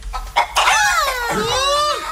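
A chicken-clucking sound effect: a couple of short clucks lead into a long, drawn-out squawk whose pitch bends up and then slides down, loud and with no voices over it.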